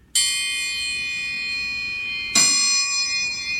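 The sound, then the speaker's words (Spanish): A metal triangle struck twice, each bright hit leaving a long, shimmering ring of high overtones that slowly fades. “Y así suena el triángulo.”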